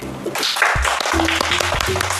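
A children's audience applauds to welcome a Song-style tea-whisking master. The clapping is dense and steady, a continuous crackle with a few louder individual claps throughout.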